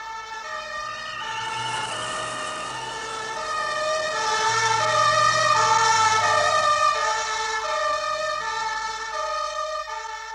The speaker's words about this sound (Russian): навстречу мчится скорая